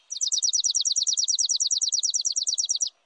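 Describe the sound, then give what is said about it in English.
Chipping sparrow song: a dry, mechanical trill of many rapid, evenly spaced, high-pitched chips, steady in pitch and loudness and lasting nearly three seconds, heard alone. “Songs can also be dry and mechanical, like this chipping sparrow's,”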